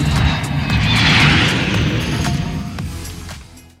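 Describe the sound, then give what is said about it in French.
Airplane taking off, a loud broad roar with rumbling low end that swells briefly and then steadily fades away. “Attention au décollage.”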